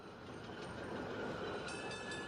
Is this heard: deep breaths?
no